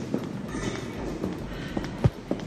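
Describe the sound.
Footsteps of a person being led away under arrest: a few soft, unevenly spaced steps over a low background hush, with one slightly heavier step near the end.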